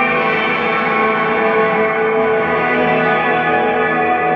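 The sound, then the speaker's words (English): A heavily reverberant sustained sound from a small effects unit with its effect level turned up: a thick, smeared wash of tone with long echoing tails, holding at a steady loud level throughout with no talk. “So much reverb on that. I like it.”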